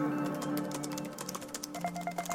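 Quick, light typing on a computer keyboard for a Google search, many soft key clicks tapping in an uneven rhythm, faint throughout.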